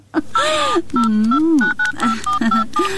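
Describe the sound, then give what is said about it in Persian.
Telephone keypad beeps as a number is dialed to place a call: a few short, high electronic tones sounding over a continuous voice with wavering pitch. “تو باش که بخوری گل یک زنگ بزنم”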